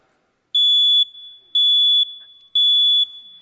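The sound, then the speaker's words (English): Smoke detector alarm beeping: three loud, piercing high-pitched beeps, each about half a second long, evenly spaced with short silent gaps between. “how many knows what this is? Smoke detector, right?”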